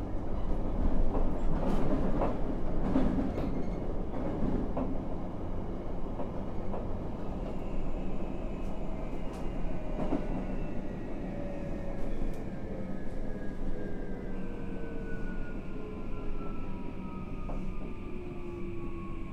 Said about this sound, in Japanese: まもなく大野城に着きます。お出口は左側です。